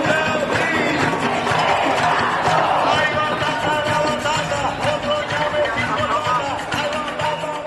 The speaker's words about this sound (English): That's the sound of people marching through San Juan after Rossello released a videotape address saying he'll step down August the 2nd.